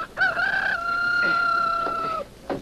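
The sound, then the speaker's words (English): A rooster crows once in a long, drawn-out call that holds a steady pitch for about two seconds, followed by a brief, fainter sound near the end. “It's my rooster. I hear him crowing.”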